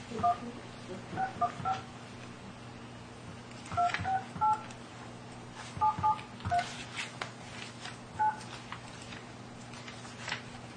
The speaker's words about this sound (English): Did you dial the 9? You have to dial the... I did. Okay. Well, try it again.